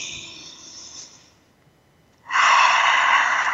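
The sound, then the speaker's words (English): Deep breath drawn in during a guided breathing exercise: a soft airy breath fades into a quiet pause, then a strong, loud inhalation rushes in abruptly and holds for over a second. “So let's take a breath and really breathe that in all the way to the bottoms of your feet, all the way to your toes. Take a breath.”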